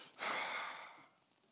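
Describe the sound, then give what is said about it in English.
A voice imitates a horse's snort with a single faint, breathy, forceful exhale lasting about a second, with no words. “he lets it out in a snort like a horse.”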